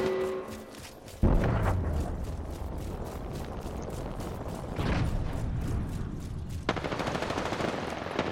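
Rapid machine-gun fire from a video game rattles on in dense, continuous bursts, punctuated by a few heavier booms.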